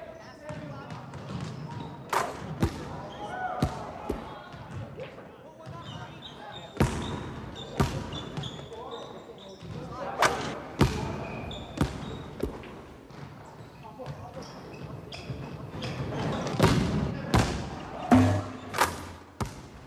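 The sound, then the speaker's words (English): Basketballs bouncing at basketball practice, with many sharp thuds scattered irregularly through the stretch and voices talking underneath. “If we lived in Pleasantville, everything would be perfect, and basketball practice would look like this.”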